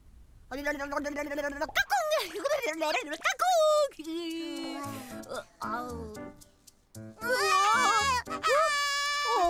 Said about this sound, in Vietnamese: Em bé thường ngày hay quấy khóc, không phải ngày xưa con cũng vậy sao?